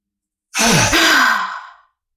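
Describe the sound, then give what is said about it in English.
A single deep exhale during a breathing exercise, a loud breathy sigh that swells quickly, holds, then tapers away over about a second and a half. “So exhale all the way out. Inhale to capacity.”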